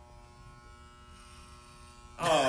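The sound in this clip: Electric hair clippers buzzing while shaving hair for a live bowl cut at Second City: a steady, thin electric hum holds for a couple of seconds before a sudden, much louder burst cuts in at the end.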